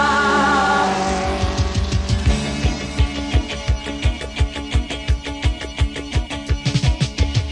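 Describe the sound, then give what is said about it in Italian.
Racing cars passing through a curve, their engines roaring loudly in rapid, evenly spaced pulsing bursts that continue steadily throughout. “Le automobili passano la curva, ma il campione Go”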